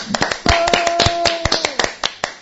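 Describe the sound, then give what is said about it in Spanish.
Scattered hand clapping breaks out as applause, with many quick, uneven sharp claps of varying loudness over a couple of seconds. “Pues otro aplauso para Carlos.”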